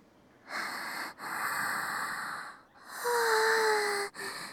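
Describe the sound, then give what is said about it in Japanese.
Deep breathing comes as a few long, airy inhales and exhales separated by short pauses, the last breath carrying a faint whistling tone. The breaths are soft and heard alone. “深呼吸。”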